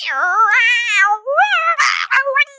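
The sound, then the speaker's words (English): A human voice imitates an old desktop computer's dial-up modem connecting over a phone line, with loud warbling, wavering squeals that glide up and down in pitch, then a few harsh, hissy bursts near the end, with no other talk. “it sounds like a cat in a dryer. That, while it's dialing up”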